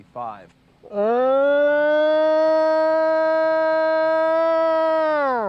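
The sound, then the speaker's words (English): A long, mournful, siren-like howl attributed to a sasquatch, of the kind known as the Ohio howl. One loud, sustained harmonic call lasts about four and a half seconds, swelling up at the start and sagging slightly as it ends. “Other times you hear the long, sort of mournful howls, often described as the Ohio howl”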